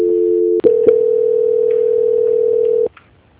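Telephone line tone plays during a call transfer: a brief dual tone, a click, then one steady, loud, unbroken tone held for about two seconds before it cuts off abruptly.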